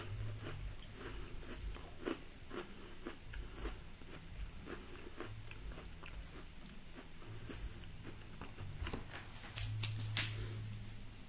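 Biting and chewing a dark chocolate and marshmallow treat: many soft, crunchy bites and wet mouth noises in an uneven run, fairly faint, with no talk.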